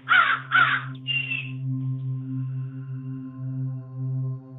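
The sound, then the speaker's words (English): Crows caw three times in quick succession, the first two loud and harsh and the third weaker, followed by a low steady hum with no further calls. “You can hear the crows calling away in the background.”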